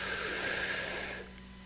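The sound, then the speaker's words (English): A deep breath drawn in during a guided breathing exercise: a steady, airy hiss lasting just over a second before it stops, with a faint low hum underneath. “So on the count of three, breathe in. One, two, three, inhale.”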